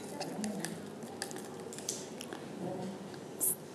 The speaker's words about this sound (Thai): วางบิ๊กเกอร์ให้เรียบร้อยให้มั่นคงหลังจากนั้นก็ทำไงคะนำเศษเทียนทำไงคะใส่ลงไปในบิ๊กเกอร์นะคะ